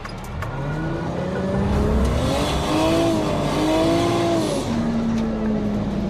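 A car being drifted during drift practice, using handbrake and clutch, roars steadily for about six seconds, its engine note sweeping up and down in pitch over a constant loud noise.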